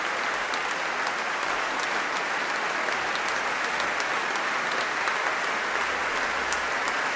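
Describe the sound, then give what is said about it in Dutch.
Steady, dense applause from a concert audience after a performance of French sacred baroque music, a continuous wash of many hands clapping at an even loudness for the whole stretch, with no voices standing out. “En terecht. Groot applaus.”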